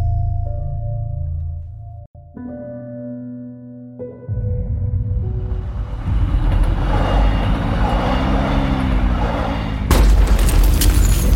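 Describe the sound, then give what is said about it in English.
Heavy bombardment with explosions overhead: after a low droning hum, deep rumbling booms build into a continuous heavy roar, capped by a sharp, louder blast near the end. “Sounds like a heavy bombardment going on up there.”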